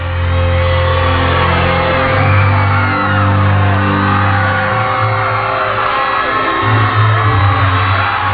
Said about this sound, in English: Everybody's saying, "Oh, well, let's meet George at the airport." 10,000 fans from South Carolina welcome King George back to Columbia in a royal celebration.